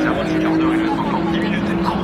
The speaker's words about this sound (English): Here we go. That's the Ferrari. Throaty.